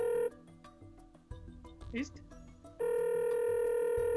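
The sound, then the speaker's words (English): A telephone ringback tone sounds while a call is dialing: a long, steady electronic ring begins at the start, and voices talk through a gap before a second long ring follows. “Oh, it's dialing.”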